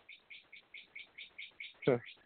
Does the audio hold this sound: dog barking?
no

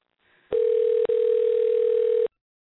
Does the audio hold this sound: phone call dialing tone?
yes

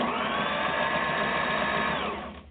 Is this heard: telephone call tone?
no

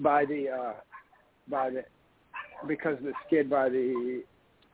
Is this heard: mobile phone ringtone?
no

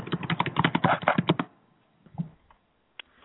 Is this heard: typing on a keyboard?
yes

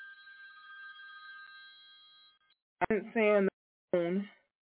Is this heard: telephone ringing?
yes

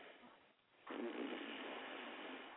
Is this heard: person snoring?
yes

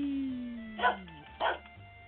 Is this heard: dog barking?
yes

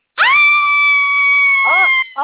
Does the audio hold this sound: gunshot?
no

